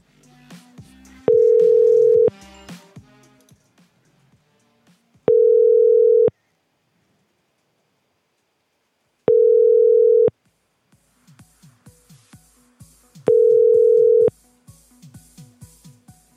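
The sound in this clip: Ringback tone of an outgoing phone call to a corporate office: four steady, mid-pitched ring bursts of about a second each, separated by gaps that hold quieter, scattered sounds.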